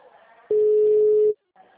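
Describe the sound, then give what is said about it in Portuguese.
A busy tone after a dropped phone call sounds as a single steady, mid-pitched electronic tone lasting under a second, loud against the quiet around it. “a ligação caiu”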